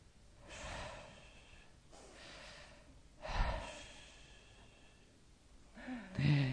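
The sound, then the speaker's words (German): A person imitates the slow breathing of someone in deep sleep, with a few long, airy breaths drawn in and let out at an even pace, moderately loud, ending with a brief voiced sound. “Wenn ein Mensch tief und fest schläft und atmet, hört sich das so an.”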